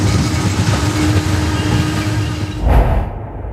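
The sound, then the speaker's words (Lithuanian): A small train arrives with a steady, loud rumble and rattling clatter, a heavier low thump near the end before the sound cuts off. “vat ir trukinukas atvažiavo. Ir atvažiavo.”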